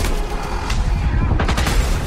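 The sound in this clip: Gunshots ring out in a police confrontation scene, several sharp, loud cracks in a quick irregular burst over a rough, noisy background.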